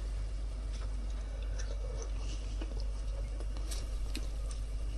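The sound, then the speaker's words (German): Faint chewing of pan-fried bell pepper cooked in hot oil: soft, irregular crunchy bites and wet squishes run steadily throughout, with no talk over them. “Wir probieren jetzt die Paprika.”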